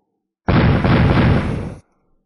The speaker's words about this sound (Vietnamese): Trên mặt hồ vang lên tiếng nổ đùng đùng không ngớt